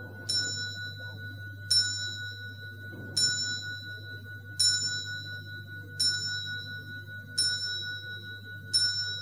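Clock striking, seven bright metallic chimes at an even, unhurried pace, each ringing out and decaying over a steady low hum.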